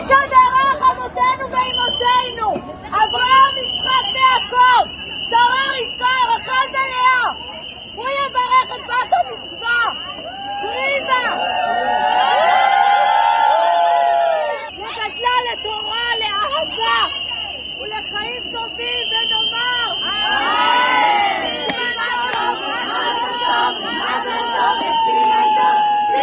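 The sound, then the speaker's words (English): Crowd shouting at the Western Wall as girls hold a bat mitzvah prayer. Many raised voices overlap loudly and without a break, and a steady high whistle-like tone runs through most of it. “Then the rabbi's voice cut through the noise, her blessing soaring over all the voices trying to shout the girls down.”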